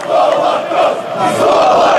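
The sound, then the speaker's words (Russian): Football fans shouting in a stadium as the referee stops play and the match ends: a dense, loud roar of many voices that swells and dips slightly but never breaks. “Кричат болельщики.”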